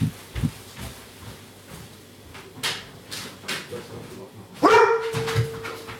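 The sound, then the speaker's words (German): A dog barks once, a loud, sharp burst near the end that trails into a short whine, after several seconds of faint household clatter and rustling. “Na, was war denn das? Hm? Hast du mich jetzt angebellt?”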